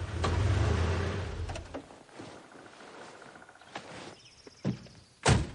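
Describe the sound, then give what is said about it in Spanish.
An off-road vehicle pulls up beside a wooden cabin among forest trees and the driver climbs out. A low engine rumble fades away, followed by quiet shuffling and a couple of sharp door thunks, the last one the loudest. “Al momento, detiene el vehículo junto a una cabaña de madera levantada entre el verde de los árboles y sale de él.”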